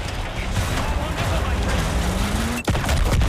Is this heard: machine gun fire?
yes